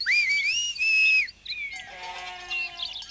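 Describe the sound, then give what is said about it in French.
A sharp, high whistle calls goats down a mountain. Long shrill tones with rising and wavering pitch are followed by a shorter blast, then a chorus of goat bleats. “Soudain, un coup de sifflet aigu retentit.”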